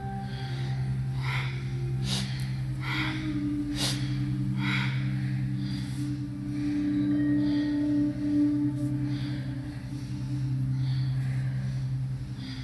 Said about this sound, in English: Inhale as you twist to the left, and exhale as you twist to the right.